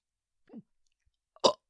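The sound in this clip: A person burps while trying to speak, producing two brief guttural bursts: a faint, low one, then a louder, fuller one after a short pause.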